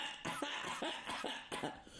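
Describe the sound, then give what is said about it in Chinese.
A voice performs a few dry coughs in quick succession, short harsh bursts spaced irregularly and heard alone, acting out a character clearing his throat before addressing a commander. “先咳嗽几声”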